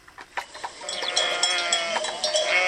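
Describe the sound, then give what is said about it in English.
A flock of sheep on a farm in rolling, craggy Spanish hill country, with bleats overlapping amid a dense jangle of clanking bells that grows fuller and steadier as it goes. “Jordi Benegas herds his flock at his farm in the rolling, craggy hills of the Spanish countryside”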